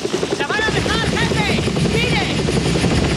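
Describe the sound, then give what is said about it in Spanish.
A helicopter lowers a patrol boat onto water, its loud rotor thrum steady throughout, with whining tones above it. “un helicóptero suelta a su patrullero sobre el agua”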